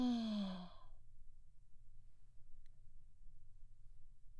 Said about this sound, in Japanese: もう一回息を吸って吐いて。